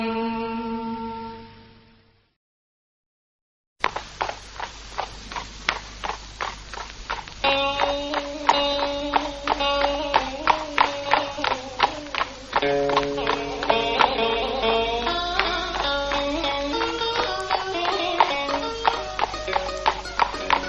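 Horse hooves clip-clop as a horse is turned east for an evening outing. After a short sound and a pause, a long run of crisp hoof clops follows at a steady, even walking rhythm.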